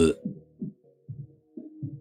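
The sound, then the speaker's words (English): A gassy burp: a short harsh burst opens it, followed by a string of low, croaking pulses in an uneven rhythm. The pulses are moderately loud and separated by brief gaps, with no talking. “Oh, sorry, I got gas.”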